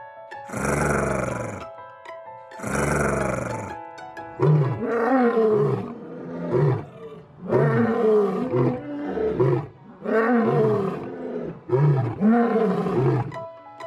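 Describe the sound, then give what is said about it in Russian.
A lion roars, opening with two long, deep, powerful roars, then continuing with a rhythmic run of shorter grunting roars that rise and fall in loudness. “Лев говорит р-р-р.”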